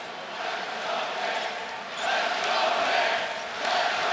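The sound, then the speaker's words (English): Knicks fans chant and roar in a packed basketball arena, a dense, sustained crowd sound that swells in a few waves of rising loudness. “Many of those Knicks fans chanting, let's go Knicks.”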